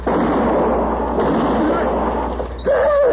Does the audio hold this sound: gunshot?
yes